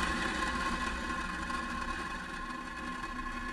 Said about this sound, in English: Engines full power. And liftoff of Starlink 2-6. Go Falcon, go Starlink. Vehicle's pitching downrange.